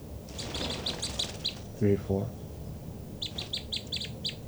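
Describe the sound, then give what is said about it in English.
Two birds calling in quick, high, chirping bursts: a rapid run of chirps, a short gap with lower sounds, then another quick series of chirps over steady background noise. “Both birds. So recording the birds again.”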